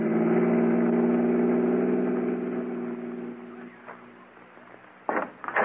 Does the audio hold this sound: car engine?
yes